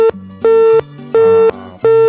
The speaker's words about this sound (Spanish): Se cortó. Se fue la llamada.